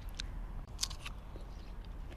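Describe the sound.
Faint crisp biting into a freshly picked, sweet, thin-skinned fruit: a few sharp crunchy snaps, then softer chewing, over a low steady background rumble.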